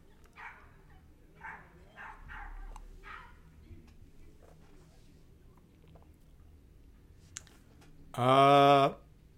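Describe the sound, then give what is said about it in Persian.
A dog barks outside at night with a single loud, harmonic bark near the end, after a stretch of faint voice-like murmuring and scattered soft clicks. “صدای سگی از بیرون میاد”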